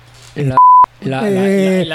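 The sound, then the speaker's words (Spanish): A single loud, steady censor beep cuts into conversational speech, lasting about a quarter second, with people talking before and after it. “ahí va a ir un pitido, ¿eh?”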